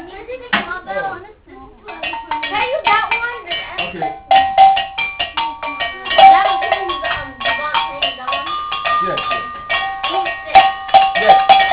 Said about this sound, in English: Can I use the bell? Can I use that one? I don't think it's comfortable. Can I use that one? It's okay. Whatever bell is okay.